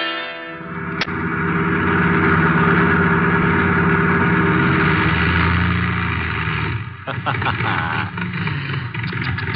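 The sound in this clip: A car engine running out of gas drones with a loud, steady roar, then breaks into stuttering, sputtering pulses near the end.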